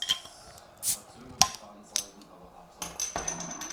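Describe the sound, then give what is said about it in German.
A large drink bottle is opened close to the microphone, giving a quiet run of small clinks and clicks with a short airy hiss in the middle. “So, jetzt mein Getränk. Ja. Ich mach's mal bei deinem Mikro auf, weil ich glaube, das ist bessere Akustik, dann mal näher dran.”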